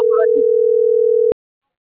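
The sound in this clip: Telephone tone after a cut-off call: one long, steady, unbroken tone that stops abruptly after about a second, with a brief voice over its start.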